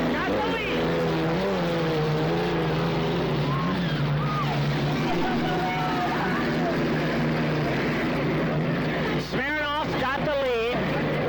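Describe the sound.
Racing boats roar around a race course, their engines a sustained, droning whine that shifts in pitch as they pass, with a voice talking over the noise.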